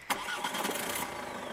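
A car engine starts as the occupants set off: a sharp burst at ignition, then a steady, fairly loud running rumble for the rest of the moment.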